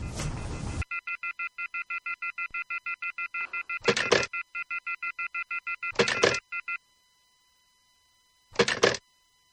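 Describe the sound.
A telephone number is dialed as a long run of many short, evenly paced, steady beeping keypad tones at a moderate level, broken by a few brief noisy bursts, followed by a pause and one last short burst.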